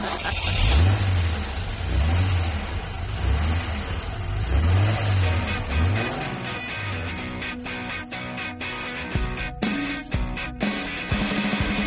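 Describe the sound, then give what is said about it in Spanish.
Ferrari sports car engine revving, its pitch rising and falling repeatedly in several throttle blips, then running on with a rough, busier growl and a few sharp bursts near the end. “nos vamos a ir con ese Ferrari”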